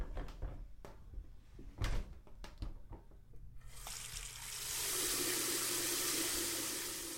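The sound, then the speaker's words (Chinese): Someone going to take a shower in a bathroom: a few knocks and clatters of the door and fittings, then water comes on and settles into a steady, broad rushing spray. “然后我要休息一下，顺便利用这个时间去洗澡，不然晚上很不方便。”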